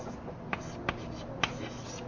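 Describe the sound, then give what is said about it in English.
Writing on a board during a mathematics lecture gives a faint, scratchy rustle with a few sharp taps standing out. “Let me better write down here k sigma.”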